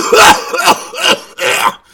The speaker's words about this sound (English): But now I actually coughed after that.